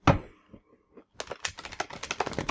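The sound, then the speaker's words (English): Stiff playing cards being handled: a single soft thump, a short pause, then a fast, dense run of crisp clicking and snapping that continues to the end. “Me and these cards, there's just so many of them. And they're stiff.”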